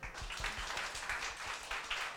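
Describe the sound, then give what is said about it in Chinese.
An audience at a church gathering claps hands to give glory to God, producing a faint, continuous patter of many overlapping claps with little change in level throughout. “我们拍手将荣耀归给神。”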